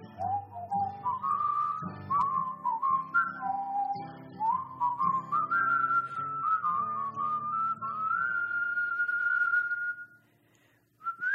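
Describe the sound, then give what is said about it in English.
A person whistles a wavering melody, the notes sliding and stepping through a continuous tune for about ten seconds. The whistling then breaks off into quiet before a short note starts up again at the very end. “Whistle, then”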